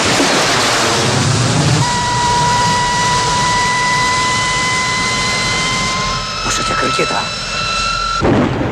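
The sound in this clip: Rocket launch after a countdown: a loud, sustained roaring rumble with steady whining tones layered over it, then crackling bursts near the end.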